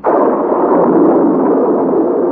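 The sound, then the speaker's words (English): A storm bursts with a heavy, deep rumbling roar that starts abruptly and stays loud and steady throughout, a dense wall of noise with no distinct claps or breaks. “The professor has scarcely spoken when the storm bursts.”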